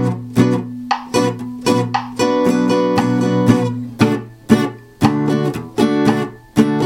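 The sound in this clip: Guitar chords strummed in two alternating down-up strumming patterns: loud, bright chord strokes in a lively, uneven rhythm, with many sharp attacks and short ringing chords in between, played alone without voices.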